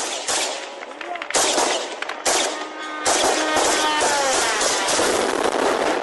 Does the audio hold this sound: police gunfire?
yes

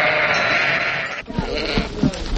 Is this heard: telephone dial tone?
no

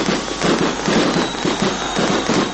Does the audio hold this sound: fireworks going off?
yes

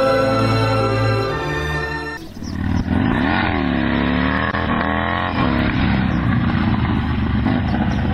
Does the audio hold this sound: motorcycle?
yes

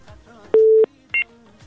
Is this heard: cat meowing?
no

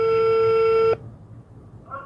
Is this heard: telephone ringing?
yes

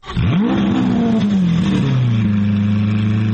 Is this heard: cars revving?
yes

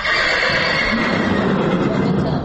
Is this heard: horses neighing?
yes

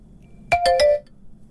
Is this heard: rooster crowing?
no

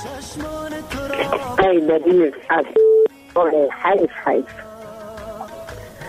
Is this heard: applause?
no

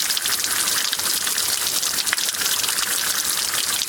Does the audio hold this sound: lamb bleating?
no

